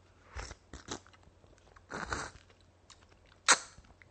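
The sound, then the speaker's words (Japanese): Wet slurping and chewing as vinegared mozuku seaweed from a pack is eaten in haste, with several uneven bursts of eating noise and one sudden sharp burst near the end as the diner chokes on the vinegar. “かっこみすぎかっこみすぎお酢はね急いで入れるとむせるんですよね”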